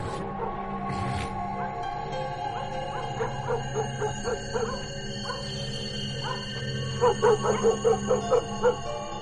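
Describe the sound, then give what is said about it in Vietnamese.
Dogs barking at night from the end of a street: two runs of quick, evenly spaced yapping barks over a steady low drone, the second run louder and more distinct. “Văng vẳng ở đầu đường, tiếng chó cắn ma cứ nhấm nha nhấm nhặng”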